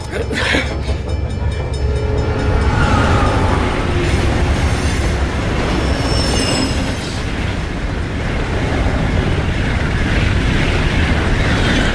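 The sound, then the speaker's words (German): A train runs on the rails beside a station platform with a loud, continuous rumble and rattling clatter that stays steady throughout. “Dann bemerkte er den herannahenden Zug.”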